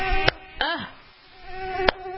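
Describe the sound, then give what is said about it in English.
Mosquitoes whining in a studio: a thin, high, wavering buzz that drones throughout, broken by a few sharp taps. “Oh, this studio. Gotta get in the hollow to get these mosquitoes.”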